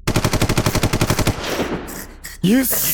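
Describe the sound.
A gun fires on full automatic, a loud, fast, evenly spaced rattle of many shots lasting just over a second. The noise then fades, and a man's voice cries out.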